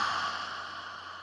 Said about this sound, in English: Inhale, smelling your imaginary or real flower with your nose. And then exhale.